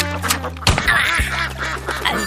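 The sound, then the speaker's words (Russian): Duck quacking in a video game hunting scene, with a few nasal, raspy quacks over a steady low drone. “Охотник стреляет в плавающую утку.”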